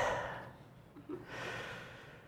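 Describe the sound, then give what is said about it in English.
A deep breath is drawn and let out, a soft, airy rush of breath that swells and fades twice, faint and alone with no talk. “take a deep breath, praise the Lord for that breath”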